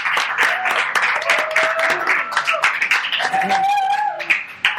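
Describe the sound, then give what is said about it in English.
An audience claps for a guest, a burst of clapping and applause mixed with voices talking throughout. “Thank you for the wonderful commentary, okay? No hay. And we will be in contact here in a little bit. And un aplauso para Carlos, eh? Bravo.”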